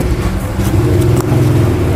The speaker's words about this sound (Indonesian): Mobil mau dikeluar.